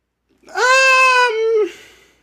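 A single lamb bleat, a clear, wavering cry lasting about a second that dips in pitch near its end, heard alone without talk.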